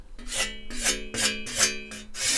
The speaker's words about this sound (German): Da streichen Sie jetzt dem Blatt entlang. Das hat man sicherlich schon mal gesehen, wie halt mit so einem Schleifstein.